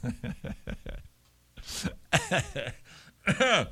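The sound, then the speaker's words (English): Throat clearing from a tickle in the throat: a few rough, raspy bursts, some carrying a voiced growl, separated by short pauses, with no speech. “Sorry, a little tickle in my throat right there.”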